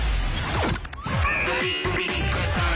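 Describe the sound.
Kicking sound effect: a dense burst of thuds, swishes and impacts, loud throughout with no clear pauses.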